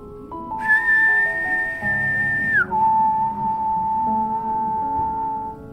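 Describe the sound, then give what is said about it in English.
A man imitates a whistle with his voice, holding a high, steady tone for about two seconds before gliding down an octave and holding the lower tone for a few more seconds. “He stopped speaking and mimicked a whistling noise, first holding a high-pitched tone for about 2 seconds, before dropping the pitch an octave and holding for another 2 seconds.”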